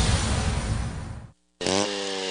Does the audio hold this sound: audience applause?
no